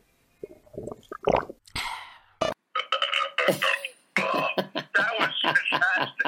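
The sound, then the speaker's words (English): Loud, throaty burps after drinking a refreshing beverage: many rasping, gurgling bursts separated by short pauses, with no talk. “but then from the burp, I knew that couldn't be it”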